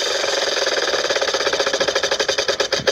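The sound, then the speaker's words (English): A big wheel of numbers spins with rapid, rattling ratchet clicks that become more spaced and distinct toward the end as it slows. “And let's see if the big wheel of numbers is fixed now. It's been landing on more than one number here lately. Let's spin it and find out what number we come up with next.”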